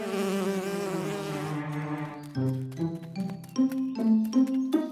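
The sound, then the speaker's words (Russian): A bee buzzes in a steady, wavering drone that holds for about two seconds, then breaks into a series of short, pulsing buzzes at shifting pitches, all fairly faint. “Ой, пчела! Испугался? А чего это она разлеталась? Наверное, хочет забрать бабушкин мед.”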